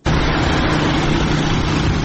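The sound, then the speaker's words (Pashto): Motorcycles and cars of armed Taliban fighters make a dense, continuous engine roar and rumble that stays loud and steady throughout, with no voices. “دغه ژغه د هغه وسلوالو طالبانو د موټر سایکلانو او موټرو دی”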